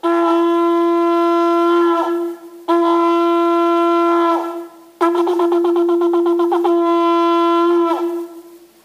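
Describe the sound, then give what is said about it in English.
A shofar, a ram's horn, blown loud and alone in a reedy, buzzing tone: two long sustained blasts, then a run of rapid staccato pulses that flows into a final held note. “That's the sound of the shofar. The shofar is a ram's horn, and it was used on the Feast of Trumpets.”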